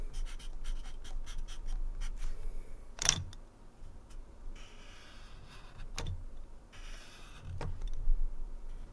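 Hand-drawn circles made with a pen or marker, giving soft, steady scratching strokes broken by a few sharper taps, with no one speaking.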